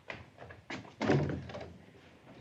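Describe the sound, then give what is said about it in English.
A front door being opened gives a few dull wooden thunks, the loudest and fullest about midway, then a softer rustling tail that fades out. “Richard hurries to the front door and opens it to Ridgway.”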